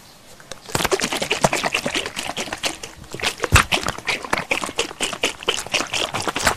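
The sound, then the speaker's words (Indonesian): Quick, irregular rattling and sloshing as a sugary milk mixture is stirred and shaken in a sugar container; the clattering taps are busy and uneven and keep going throughout. “Aduk ya, kita kocok-kocok. Dikocok.”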